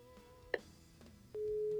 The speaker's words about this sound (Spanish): Sale, estamos marcando de nueva cuenta.